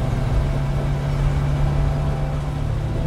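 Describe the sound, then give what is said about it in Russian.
Steady engine drone of a small old khaki-coloured minibus driving along a dirt road: a constant loud low rumble with a humming tone underneath and little change throughout. “Старенький небольшой микроавтобус защитного цвета едет по проселочной дороге.”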